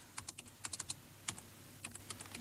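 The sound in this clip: Typing on a computer keyboard while an ID number is entered on an election lookup website: quick, fairly faint keystrokes in irregular bursts, with a short pause midway.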